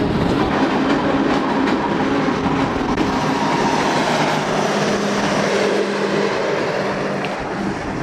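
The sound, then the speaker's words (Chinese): A train on the Qinghai-Tibet Railway, approaching Tuotuohe station, rumbles loudly as a steady, dense roar of wheels and rattling carriages with faint tonal squeals running through it, continuous throughout with no voices. “列车即将驶入沱沱河站，这里也是距离三江源最近的车站。”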